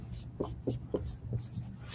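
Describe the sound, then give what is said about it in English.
Pen strokes scratch across paper as notes are written by hand: a few short, soft rubbing strokes in a loose, steady rhythm, faint and alone. “Okay, I'm going to write this down. That way you can pay attention.”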